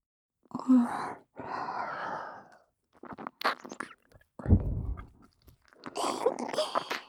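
Close mouth sounds of nibbling at an ear in an intimate role-play: soft, wet smacks and bites mixed with breathy whispers, arriving in irregular bursts with short silent pauses between them.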